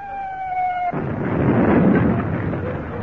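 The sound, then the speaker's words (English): An artillery shell explodes. A brief steady tone cuts off abruptly into a loud, deep, rolling boom that swells and then slowly fades. “And it wasn't a bomb, it was a shell.”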